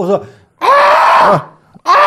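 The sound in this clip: A human voice imitates screaming gulls with three loud, strained screeches of wavering, bending pitch. The middle call is long and drawn out, and the last is cut short.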